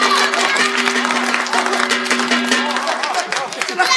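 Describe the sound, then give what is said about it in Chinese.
An audience at a stage show applauds before a poetry recitation. The clapping is dense and continuous, loud and unbroken for the whole stretch. “表演第一个节目诗朗诵，表演者吕青侯，大家热烈鼓掌。”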